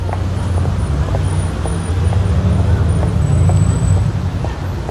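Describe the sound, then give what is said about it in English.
A bus pulls up in busy street traffic, its low engine rumble running steadily under broad road noise without a break. “A bus pulls alongside her.”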